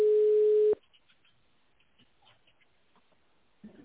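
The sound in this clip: A telephone ringback tone plays while a call is put through to an operator. It is one steady, clear beep lasting under a second, followed by near-silence with faint noises and a soft bump at the end.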